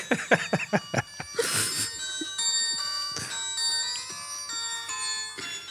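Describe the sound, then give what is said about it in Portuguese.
A polyphonic phone ringtone plays a quiet, bright electronic melody of layered synthetic notes that step between pitches, opening with a few quick percussive blips. “Olha, eu tenho saudades desses toques. É isto que temos, pá. É isto que temos. Um bom toque polifónico.”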